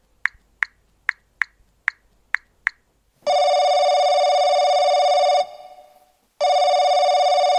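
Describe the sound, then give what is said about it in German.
A telephone call is dialed and rings: seven short, sharp key beeps in quick succession, then a steady, buzzing ringback tone that stops, pauses, and starts again. “Dann ruft er seinen Freund Erik an.”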